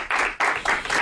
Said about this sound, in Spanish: Un aplauso para ella.